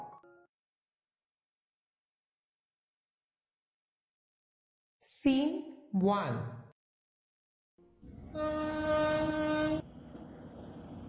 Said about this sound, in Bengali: Train সবেমাত্র station ছেড়েছে।